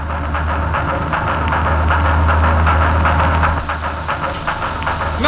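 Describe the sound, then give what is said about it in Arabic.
Giant beetle wings buzz as the beetle flies with a rider on its back, heard as a loud, continuous low droning rumble with a hissing edge that holds steady throughout. “هذا سيدي يطير، يطير راكبا خنفساء كأنه على متن حصان.”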